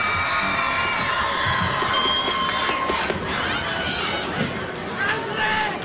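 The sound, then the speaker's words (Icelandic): Cheering crowd at a live show greets a performer as he leaves the stage, with whoops, shouting voices and clapping blended into a lively, sustained din that barely dips across the whole stretch. “Kristmundur Axel, gefið honum extra gott klapp!”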